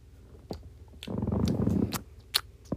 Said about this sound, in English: Could you chomp a little quieter?